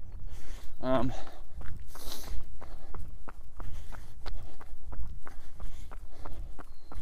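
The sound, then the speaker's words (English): Rapid footsteps of a person running up a hill: many even, quick strides in a steady rhythm that continue through the whole clip. “so now all I'm doing is I turn this back on, run up the hill here, and go.”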